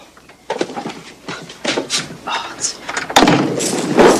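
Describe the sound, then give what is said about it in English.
A cupboard door is shut after an animal is put inside, amid several soft bumps and rustles, with a sharper, louder thud near the end that is followed by continuing noise. “He gets out of bed and picks up the animal and puts it in the cupboard.”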